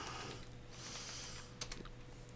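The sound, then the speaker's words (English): Faint typing on a computer keyboard as a Google search is entered, a few soft key clicks over a quiet, steady background. “Bane clip. I just typed that into a Google search.”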